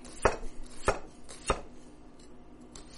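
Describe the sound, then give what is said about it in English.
A knife slices a cucumber into very thin rounds, giving a few crisp, quiet taps on the cutting board at an uneven pace, with no talk. “slice the cucumbers in very thin rounds. And that's what I'm doing with my second cucumber.”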